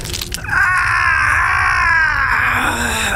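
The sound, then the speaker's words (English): A person screams in pain after a fingernail tears loose, letting out one long, loud, strained cry that holds steady for several seconds. “I scream.”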